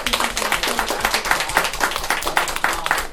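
Applause from a group at the close of a prayer in a church class: loud, dense clapping with crisp, even hand strikes that continues without a break through the short clip.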